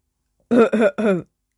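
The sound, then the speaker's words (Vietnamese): Three short, dry, voiced coughs from a young man clearing his throat after nearly choking. They come in a quick, close-spaced run and are heard alone against silence. “Ho khan một tiếng, người thanh niên lúc này khí tức mới thông thoát, không có bị sặc chết.”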